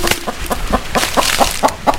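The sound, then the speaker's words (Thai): Hen clucking in a rapid, steady series of short, evenly spaced clucks, about four per second, fairly loud throughout with no talk. “แม่ไก่ได้ร้องกุ๊กกุ๊กกุ๊กและคุยเขี่ยไปมา”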